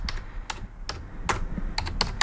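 Keys clatter on a computer keyboard as someone types in Russian, with irregular clicks falling singly and in quick clusters, moderately loud and with no talk.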